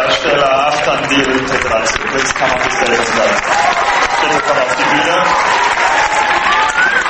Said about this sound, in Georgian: ფილმის ბოლოს კი ცოოპალასის 2000 კაციან დარბაზში ნამდვილი ყიჟინა